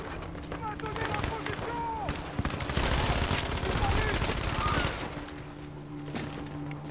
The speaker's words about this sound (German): Ey, Digga, die Waffe sprayt as hell.